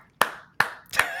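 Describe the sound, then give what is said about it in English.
Three sharp hand claps, evenly spaced and crisp, each cutting off quickly, with nothing else heard between them. “let's go ahead and clap for that”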